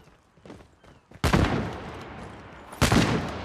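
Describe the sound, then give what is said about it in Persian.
Gunfire in a video game: two loud, sharp bursts of shots, each followed by a decaying rumble. Faint scattered taps come before them. “دوباره گان کشید و تیرم تموم شد، یه ریلود کردم، اگه دوباره شروع کرد بزنم منم بزنمش.”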